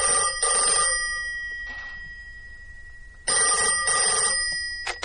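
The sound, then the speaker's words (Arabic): A telephone rings at home in two loud bursts of rapid bell trilling, separated by a few seconds of near quiet, with no talk over them. “الو؟ ايوه يا فندم، تليفون عشانك يا بابا.”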